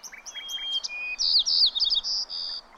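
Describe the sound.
Bird song: a rapid run of high, clear chirps and whistled trills, loud and alone, the notes grouped into short bursts with a few brief pauses between phrases.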